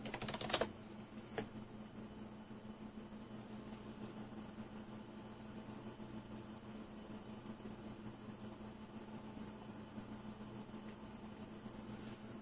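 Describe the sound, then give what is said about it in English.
Someone typing on a computer keyboard: a soft, steady patter of rapid key clicks running throughout, with a couple of sharper taps near the beginning. “I'm sure you're just loving listening to me type.”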